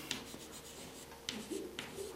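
Writing something down by hand: a few scratchy strokes and short rubbing bursts, fairly faint and unevenly spaced, with no talk.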